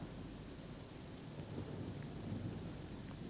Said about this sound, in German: Es regnet.